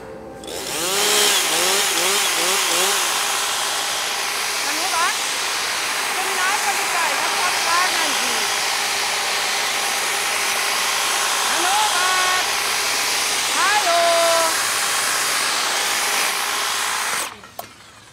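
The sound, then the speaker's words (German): A motor-driven hedge trimmer cuts a hedge, giving a loud, continuous high buzzing whine for about sixteen seconds before cutting off at the end, while voices talk over it. “Hab ich keine Zeit, muss schneiden, Hecke.”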